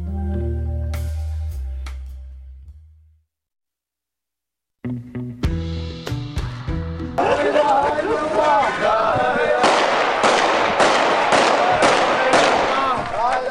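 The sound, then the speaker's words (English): Mourners fire guns at a funeral procession in a Shiite neighborhood of East Baghdad: many sharp, loud cracks in rapid bursts with crowd noise, following a quieter opening stretch. “Today, in a Shiite neighborhood in East Baghdad, mourners fired guns and gathered for a funeral procession for some of those killed when a suicide bomber drove his SUV into a crowd and detonated it.”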